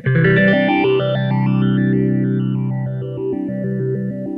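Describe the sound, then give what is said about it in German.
An electric guitar chord rings through a multi-step phaser pedal in step mode, its tone jumping in distinct stepped shifts rather than a smooth sweep. The loud, sustained chord decays slowly as the stepped pattern repeats. “Right, so it's a multi-step phaser. I'm not even sure how many steps it is.”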